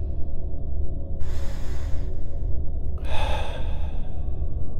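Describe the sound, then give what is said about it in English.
A deep breath drawn in through the nose and let slowly out through the mouth, two soft, airy breath sounds about a second each, separated by a short pause, with no talk. “Breathe in deeply through your nose and breathe out slowly through your mouth. Do this again.”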